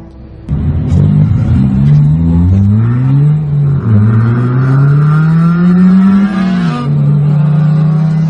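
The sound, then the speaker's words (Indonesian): A car driving at night, its engine a loud, steady rumble whose pitch climbs in stages as it accelerates, with short drops between rises. “Malam itu Boy membawa mobil miliknya menjemput Rusdi ke kedai ayam bakar langganan mereka.”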